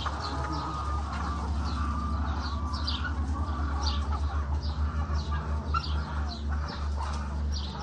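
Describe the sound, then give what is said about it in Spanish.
Chickens at a poultry farm, with many short, bright chirps and clucks repeating throughout over a steady low hum. “De aquí mandan el pollo que te comes tú allá, era.”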